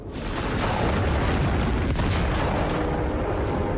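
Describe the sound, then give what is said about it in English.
Explosions rip across a factory as one of its tall chimneys collapses. A loud, unbroken wall of deep booming rumble runs throughout, with crackling bursts layered on top and no pause. “ducks for cover as explosions occur all over the factory. One of the mighty chimneys collapses as smoke rises up from the burning buildings.”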